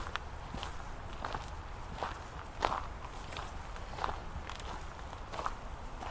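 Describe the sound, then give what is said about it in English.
Footsteps crunch over gravel beneath a woman's shoes, many even, unhurried steps at a gentle walking pace, fairly soft against a faint steady background. “The crunch of the gravel beneath her shoes is oddly satisfying, isn't it?”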